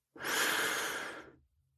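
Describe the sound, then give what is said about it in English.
A person takes a deep breath and lets it out in one long, soft, airy rush of about a second, then it fades into silence. “Now, take a deep breath.”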